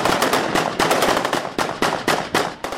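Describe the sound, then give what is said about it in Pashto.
Soldiers fire celebratory gunfire into the air in a district bazaar: many sharp, loud reports in quick, irregular bursts, each cracking hard and then decaying briefly before the next. “جشن نیولی او هوایی ډزې کړې”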